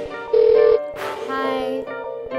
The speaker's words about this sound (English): After the beep record your message.